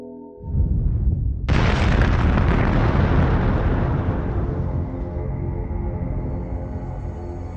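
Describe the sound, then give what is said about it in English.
A fire blast explosion erupts with a sudden, loud burst after a brief faint rumble, then a broad roaring wash that slowly fades over several seconds. “Fire blast!”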